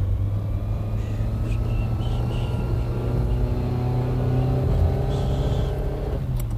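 A car engine drones steadily while the car drives out of town and overtakes at speed, a continuous low hum with a smooth, even loudness throughout.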